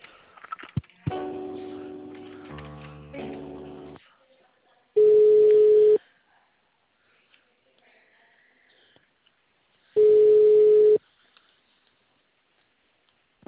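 Telephone ringing tones sound as a call is transferred to another department: two steady, loud tones, each lasting about a second and spaced several seconds apart, with quiet line hiss between them.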